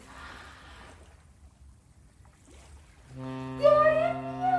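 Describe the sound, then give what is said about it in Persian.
A ship approaching on water: low, breathy wind-like noise at first, then a loud, sustained harmonic horn blast comes in and holds to the end. “داره میاد کشتی اومد. بچه ها این اسمش کشتیه، کشتی.”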